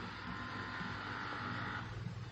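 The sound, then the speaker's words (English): Automatic power window lift operating in a new car, giving a steady electric motor whine that holds for about a second over a hissy, constant background noise. “Oh yes, those are for the windows. I'll show you how they work.”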